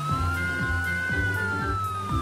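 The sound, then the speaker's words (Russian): Toy police car sounding its electronic siren, a steady high wailing tone that arches gently, over a regular low thumping pulse that repeats throughout. “Полицейская машинка проедет по новой дороге первой. Разгоняемся!”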